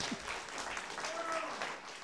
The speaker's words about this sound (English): That was a golf clap. Let's do that again.